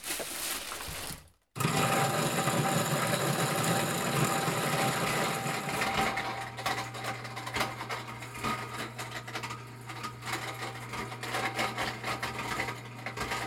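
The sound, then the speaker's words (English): Grinding from a Champion juicer with a grain mill attachment cracking dried corn. The heavy-duty motor whirs steadily with a rough, dense texture, stops briefly early on, then grinds on continuously with a steady low hum. “They have a grain mill attachment for their Champion juicer. It's one of those classic juicers with a heavy-duty motor. I'm going to grind it twice because you have to crack it first.”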